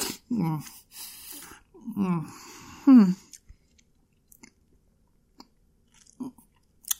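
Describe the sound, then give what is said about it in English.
Someone eats a piece of chocolate, with a few crunchy bites and chewing sounds mixed with brief vocal noises, then faint, scattered mouth clicks in near quiet. “Oh, maybe I'll just have another chocolate. Yeah. I mean, chocolate is still delicious, right?”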